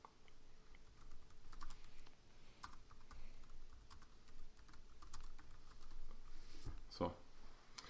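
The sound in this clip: Typing a message on a computer keyboard, a quiet, steady patter of key clicks running through the whole stretch.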